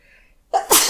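A person sneezes loudly: a short sharp intake, then a forceful explosive burst.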